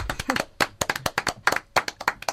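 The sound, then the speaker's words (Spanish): Sparse applause from a small group, heard as many sharp, separate hand claps in a loose, uneven rhythm, with a brief voice near the start. “Bueno, un aplauso, por supuesto”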